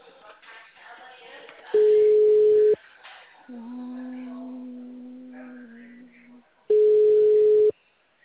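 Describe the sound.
Telephone ringing tone while waiting for someone to answer: two steady, mid-pitched beeps about five seconds apart. A lower, steady droning tone sounds in the gap between them.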